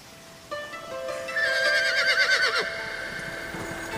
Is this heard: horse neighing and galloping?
yes